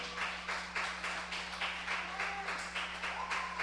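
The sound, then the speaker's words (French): A church audience clapping during worship: regular rhythmic clapping that pulses at a steady beat, fairly faint, over a constant low hum. “Est-ce qu'on peut se lever ce soir? Alléluia. Est-ce qu'on peut acclamer le Seigneur très très fort?”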